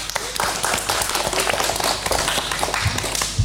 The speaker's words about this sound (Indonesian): Wah, luar biasa, beri tepuk tangan yang meriah dong.